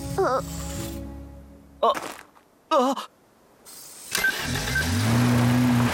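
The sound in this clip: A race car engine starting in an animated scene. Short tonal bursts come first, then a sustained engine tone builds and climbs for the last couple of seconds.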